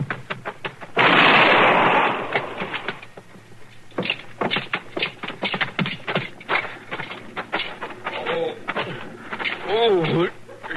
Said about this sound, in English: Stop or I'll shoot.